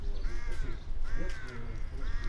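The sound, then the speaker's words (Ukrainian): A flock of ravens cawing near a morgue: a few hoarse, drawn-out caws in loose succession, fairly faint over a constant low background rumble. “Поряд лячно каркає зграя воронів.”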